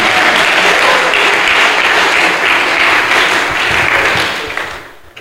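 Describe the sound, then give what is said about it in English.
Loud, dense applause from a crowd at a gathering, many hands clapping in an unbroken roar that holds steady, then thins and fades over the last second. “Clap for Sandra.”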